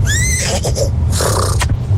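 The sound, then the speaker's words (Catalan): A person imitates a horse neighing with their voice: a loud, high, wavering whinny, followed by a few shorter breathy, snorting bursts, with no other voices. “Imitaré el cavall.”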